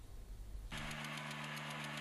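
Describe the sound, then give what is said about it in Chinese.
Engine drone from four high-horsepower pneumatic seed drills sowing a soybean field: a low rumble gives way abruptly to a steady, mid-pitched machine hum with strong harmonic bands. “现在呢，在我的身后，四台大马力的气息播种机正在全力推进完成最后一块大豆田的播种作业。”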